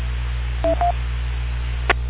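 Telephone tones announce an incoming phone call: two short electronic dual-tone beeps in quick succession over a steady low hum, followed by a brief click.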